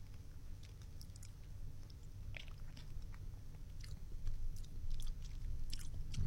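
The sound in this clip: Biscuits are being eaten in a studio: faint, irregular crunching bites and chewing, scattered and soft over a low steady background hum.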